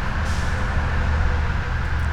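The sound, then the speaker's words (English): Road traffic buzzing by on the 680 loop makes a steady, continuous low rumble with a broad hiss above it. No single vehicle pass stands out, and no one speaks. “I can actually see traffic buzzing by on the 680 loop.”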